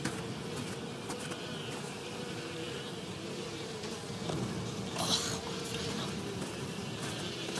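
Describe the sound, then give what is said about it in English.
Dense, steady buzzing from a swarm of hungry black bugs gathered over a pool of congealed blood. The hum holds at an even level throughout, with no voices. “A little pool of congealed blood and a bunch of hungry bugs.”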